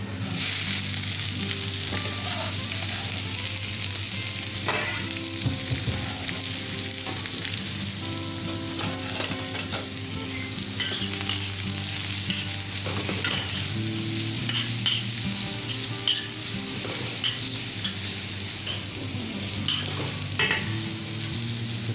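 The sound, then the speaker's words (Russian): A vegetable sauté hits well-heated oil and sizzles loudly and steadily, with occasional scrapes and clinks of stirring throughout. “Все, мы закидываем пассировку.”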